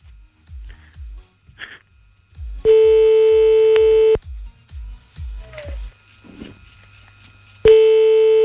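A telephone call is dialed, with rhythmic low pulses on the line broken twice by a loud, steady phone tone, once lasting about a second and a half and once returning near the end.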